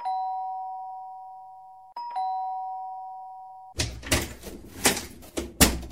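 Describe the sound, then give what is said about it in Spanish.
Two sustained electronic doorbell chimes ring one after another, each fading slowly, then a burst of several loud, sharp clattering knocks and thumps follows. “Alguien toque el pinche timbre,”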